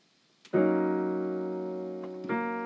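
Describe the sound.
A single sustained chord, the opening chord of a slow tune, rings out full and steady and gradually fades before being struck again just before the end.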